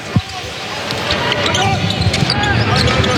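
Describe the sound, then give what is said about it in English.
A basketball is dribbled up the court during a game: repeated rubbery thuds under fast commentary and a constant arena crowd murmur. “Anderson dribbles the ball up to the wing with 17 to shoot.”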